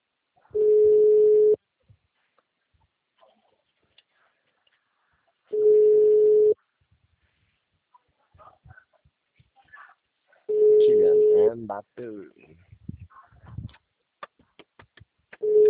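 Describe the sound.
Telephone line tone on a call that fails to connect: a steady mid-pitched beep about one second long recurring roughly every five seconds, three full tones plus the start of a fourth, with faint voices between them.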